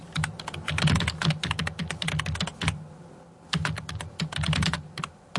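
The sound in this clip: Keyboards clatter in a Berlin office as rapid bursts of typing keystrokes pause briefly midway, then resume in another quick run of clicks.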